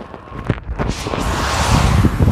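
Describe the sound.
Wind blows outdoors on a cold day's walk and buffets the microphone as a broad, rushing roar that swells slightly and stays steady, with no talk.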